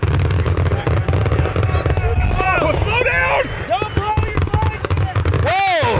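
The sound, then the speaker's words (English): A fireworks show goes off in a dense barrage of crackling bursts and booms, with several whistling rockets, while people talk over the noise. “This is not your grandfather's firework show.”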